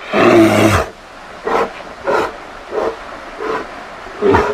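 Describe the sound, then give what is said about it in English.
Grizzly bear roaring in Alaska: one long, loud, rasping roar, then five shorter, rough growling huffs at roughly even intervals, the last one louder. “Sounds of Alaska from KRUA 88.1 Anchorage, featuring grizzly bears. Scary stuff.”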